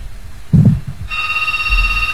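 A telephone ringing on a radio call-in line: a short low thump, then a steady electronic ringing tone that continues to the end, heard alone without talk.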